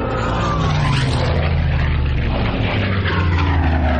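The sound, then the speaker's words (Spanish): Three bomber planes fly over a burning fortress at Calais in wartime, their propeller engines making a loud, continuous, throbbing drone that holds steady throughout without a break. “La cámara se eleva sobre la fortaleza. Está rodeada de restos ardiendo. Tres bombarderos la sobrevuelan.”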